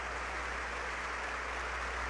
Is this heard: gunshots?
no